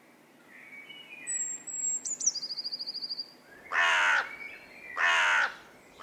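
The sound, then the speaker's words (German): Crows caw in a group gathered on damp, dark-brown soil in a field north of Munich: two loud, harsh caws, preceded by faint high-pitched chirping and a rapid trill from birds. “Eine Gruppe Krähen versammelt sich auf einem Feld im Norden von München. Sie picken in den dunkelbraunen, feuchten Boden hinein.”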